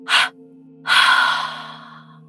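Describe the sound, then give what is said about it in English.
Two breaths are exhaled out of the mouth during a guided breathing exercise: a short, sharp puff followed by a longer, softer breath that trails away, over a steady low drone. “one last time in your nose, and a double exhale out of your mouth.”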